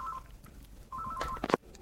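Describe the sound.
Telephone touch-tone dialing beeps as a caller phones in to a radio show: a short tone, a pause, then a quick run of several more clear electronic beeps.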